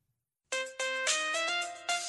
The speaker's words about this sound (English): What's that music? Sorry, it's my cell phone.